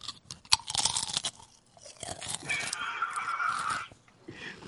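Crunching and chewing of food, with irregular bursts of crisp, loud crunches early on, followed by a steadier stretch of chewing noise and a few fainter crunches at the end.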